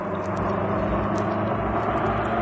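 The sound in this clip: An old car's engine runs on an empty road, a steady, dense, unbroken drone with a low rumble and an even loudness throughout.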